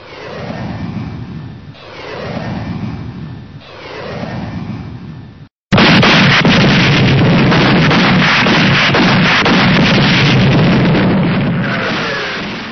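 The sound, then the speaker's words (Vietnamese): Anti-aircraft gunfire against attacking jet planes: a few swelling, wavering roars, then a sudden loud barrage of dense, continuous blasts and cracks that holds steady before easing slightly at the end. “Bầy phản lực Mỹ xộc tới. Tiếng đạn cao xạ nổ rất đanh.”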